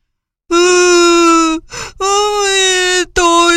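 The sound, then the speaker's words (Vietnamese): A voice acting out a crocodile character's loud wailing cry: two long, sustained, sobbing wails with a sharp gasping breath between them, and a third wail just beginning at the end. “Con vật khẽ chớp mắt mấy cái, rồi khóc bù lu bù loa.”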